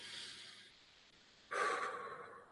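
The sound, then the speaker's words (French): Someone inhales deeply through the nose during a guided relaxation breathing exercise, a faint, soft, airy rush of breath that swells stronger toward the end, with no talk. “Fermez nos yeux et simplement respirer. Inspirez.”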